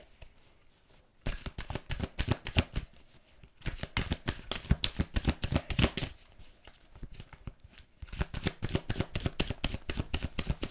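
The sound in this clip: A deck of tarot cards is shuffled in several rapid, crisp bursts of riffling and shuffling, each lasting a couple of seconds, with brief quieter pauses between them and no talking.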